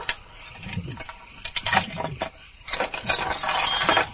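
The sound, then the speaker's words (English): Metallic clinks and rattles as a padlock is forced open, with several irregular bursts of clanking and grinding over a low, steady background. “Let's hope I can crack that padlock.”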